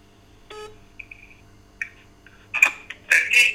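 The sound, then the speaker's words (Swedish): A phone call being dialed: a few short electronic beeps and tones, then louder, denser bursts near the end. “Jag ringer upp eh, min vän Peter Westerholm som har hjälpt mig med att ordna de här verkstaden och allting. Ska vi se om han svarar.”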